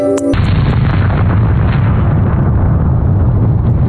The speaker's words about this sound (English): A blast so powerful that it was heard 200 miles away in Louisiana.